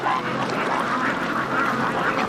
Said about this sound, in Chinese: 白干村这个鸭子养得太好了。